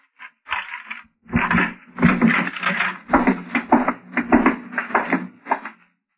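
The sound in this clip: A door unlocked with a pass key and opened: many irregular metallic rattles, clicks and clattering knocks follow one another at a moderate level for about five seconds.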